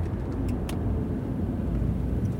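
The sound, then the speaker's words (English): A car on the road comes closer, a steady low engine and tyre rumble with broad road noise that stays even throughout, with no voices. “That car is flashing its lights at us.”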